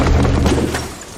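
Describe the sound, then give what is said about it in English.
A battle impact effect from the Assault Gem attack in a turn-based video game: one loud, booming burst that rings on briefly and then fades. “Foe Trio Guardian used Assault Gem.”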